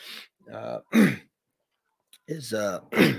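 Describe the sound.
Someone clears their throat in two voiced bouts separated by a pause, each made of a few rough, throaty bursts at moderate loudness.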